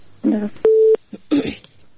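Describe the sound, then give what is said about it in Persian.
A single telephone keypad beep sounds as a radio host dials to take a call-in listener. The tone is brief and steady, with bits of voice and throat noise around it. “فکر کنم بازم یک تماس داریم. خب تماس میگیریم.”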